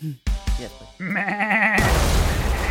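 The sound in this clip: A human voice imitates a ram, giving a few short vocal bursts and then a long, quavering bleat, followed by a rough, noisy rush of sound.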